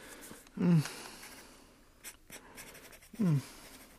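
A pen scratching on paper as a letter is written: quiet strokes broken by two louder, brief scraping squeaks, with no speech.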